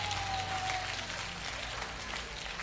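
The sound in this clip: A church audience applauding during a worship service, continuous, fairly faint clapping that holds a steady, dense texture throughout.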